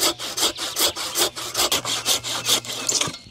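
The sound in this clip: A saw cuts through a wooden beam made from young growth, many quick back-and-forth strokes in a steady rhythm, each a rasping burst of fairly loud scraping, with no voices.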